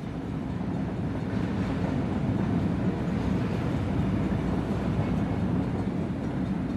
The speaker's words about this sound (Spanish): Disfrutas de la comodidad del asiento. Del suave y relajante traqueteo del tren.